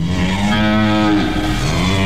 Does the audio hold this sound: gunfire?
no